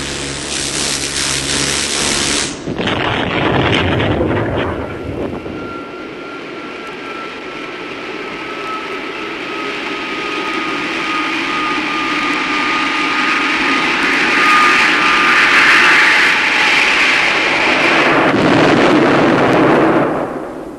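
A jet aircraft hovering, turning and firing: a harsh blast-like burst near the start gives way to a loud, sustained engine roar that swells steadily and holds to the end.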